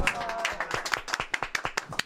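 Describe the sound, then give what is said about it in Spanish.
Applause for a guest bassist at a rock music gathering: many sharp, separate hand claps from a small group, crisp and uneven in rhythm, with faint voices mixed in underneath. “Es un aplauso para Sergio”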